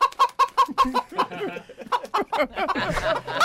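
Hen clucking as a comic sound effect: many short, evenly spaced clucks in quick rhythm, giving way to a busier, more jumbled run of clucks.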